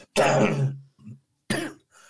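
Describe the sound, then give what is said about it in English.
Harsh coughing from someone whose beer went down the wrong pipe: two rough, throaty bursts with a smaller cough between them, heard alone without talk. “I'm sorry. That beer went down the wrong throat. The wrong pipe or something, whatever.”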